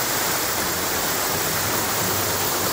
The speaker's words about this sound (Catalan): El salt del Molí de Salgueda, que és una cascada d'uns 20 metres d'alçada que, en dies de molta aigua, sona així, escolteu.